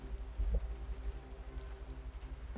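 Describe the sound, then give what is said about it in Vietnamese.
Heavy rain falls on a gloomy, overcast night as a steady, even patter that stays constant throughout. It is moderately soft, with no voices or other distinct sounds. “Thời tiết u ám cộng với mây mưa có phần nặng hạt”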